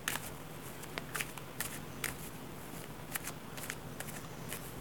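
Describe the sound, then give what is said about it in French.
Playing cards shuffled during a card trick: a series of brief, crisp riffling bursts spaced irregularly over a steady low hiss, with no talking. “Je rebrasse les cartes.”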